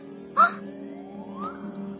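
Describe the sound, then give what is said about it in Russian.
A little girl cries in a fairy-tale forest scene: a short sobbing whimper, then a thin, drawn-out wail that slowly rises in pitch over a steady low drone. “О чем, деточка, плачешь? О чем маленькие слезы льешь?”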